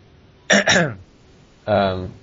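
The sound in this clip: Throat clearing from someone with chips stuck in their throat: a quick double burst of harsh, voiced rasping, then after a short pause a longer, louder rasp.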